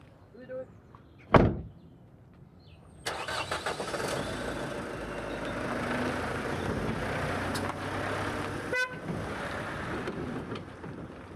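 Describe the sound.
A car door shuts with a sharp thump. The engine starts a moment later and then runs steadily as the car sets off and drives, at a constant mid-pitched hum.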